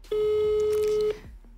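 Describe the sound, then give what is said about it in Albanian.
A telephone call ringing unanswered: one steady, clear tone of about a second that cuts off abruptly, leaving faint background noise. “Ky numër nuk e ngre telefonin”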